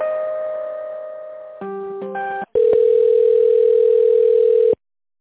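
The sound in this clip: Telephone tones while a call is transferred: a steady tone, then a few brief stepped tone changes, a short gap, and a louder steady tone that holds for about two seconds before cutting off abruptly.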